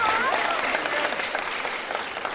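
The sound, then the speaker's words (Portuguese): An audience applauds at a samba and pagode gathering with steady, dense clapping from start to finish. A voice is faintly audible beneath the clapping. “uma salva de palmas”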